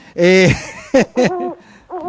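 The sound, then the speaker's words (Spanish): A bird call sound effect plays as a short series of loud, tonal hooting and warbling calls with bending pitch, separated by brief gaps. “Espere, estoy escuchando el pajarito. A ver, póngame el pajarito. Ponga el pajarito.”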